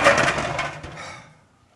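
A bowl clattering in a kitchen while sausage and cheese puffs are being made, one loud, harsh rattling impact whose noisy ring fades away over about a second and a half.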